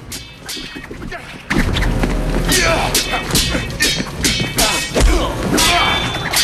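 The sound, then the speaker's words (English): Heavy thuds and whacks from a vampire movie fight, as Blade trades low blows and repeated head kicks with a ninja. The sharp hits land in a quick, uneven run over a loud, dense backdrop. “striking at Blade with a series of low blows. Blade kicks him in the head repeatedly, but the other vampire attacks before Blade can finish him off.”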